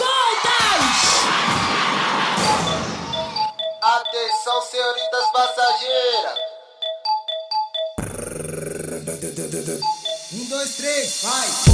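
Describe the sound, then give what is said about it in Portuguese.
Shouting from a crowd at a DJ-led dance party: a loud, dense roar of voices for about three seconds. Bright electronic beeping tones follow, then busy music. “Agora eu quero ouvir o grito.”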